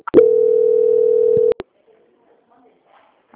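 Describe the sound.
A telephone transfer tone sounds during a call: a single steady, mid-pitched tone holds for about one and a half seconds, then a couple of sharp clicks follow before near silence.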